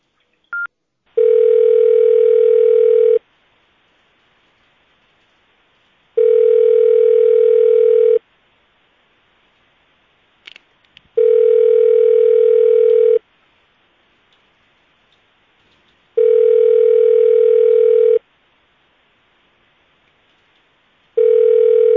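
A telephone line tone plays while a call is transferred to an accounting department: long, steady beeps lasting about two seconds each, evenly spaced by about three seconds of quiet, with a few faint clicks between.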